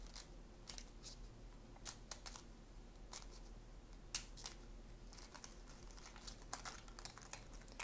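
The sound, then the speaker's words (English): Faint shuffling of a tarot card deck, followed by the deck being cut: many crisp, sharp clicks and riffling snaps scattered irregularly, with no talk. “Card that flipped out is the Devil upright, and I'm gonna cut the deck.”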